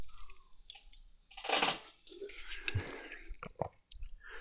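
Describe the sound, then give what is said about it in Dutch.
A can of Nokko drink cracked open: a sharp hissing burst partway through, followed by faint fizzing and small clicks and crackles, all quiet. “Ik ga het blikje kraken.”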